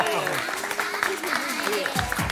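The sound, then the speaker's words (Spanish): Audience applause for a magician on a stage show: a continuous wash of clapping with voices talking over it. “Un aplauso para Magic Andreu.”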